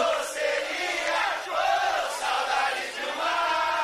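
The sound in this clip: An audience cheers at a live show: a dense, steady roar of shouting and whooping voices that holds at an even loudness throughout, with no single voice standing out.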